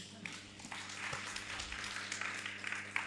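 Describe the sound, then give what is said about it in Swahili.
Faint scattered applause comes from an audience at a Swahili Bible lesson after they are told to applaud themselves. It is a low, steady patter with a few sharper claps. “Good. Jipigieni makofi.”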